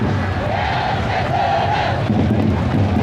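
Football fans chant 'xiongqi' from the sideline during a match: a loud, continuous crowd roar with repeated chant phrases swelling through it.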